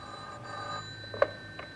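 A telephone rings on a police line: a faint, steady ringing tone with a short sharp click near the end.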